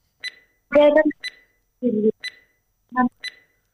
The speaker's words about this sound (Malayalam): Timer start ചെയ്യാണേ.